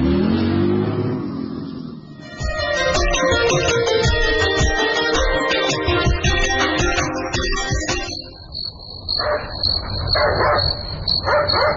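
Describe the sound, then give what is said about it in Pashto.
A dog barks in the middle of the night, giving a few sharp barks in the later part over a steady high insect chirr. Before the barks comes a loud, dense rumbling stretch, and no one talks. “خوشی نه ښکاري، نه پوهېږم چې دا سپی ولې غاپي. خامخا خبره شته.”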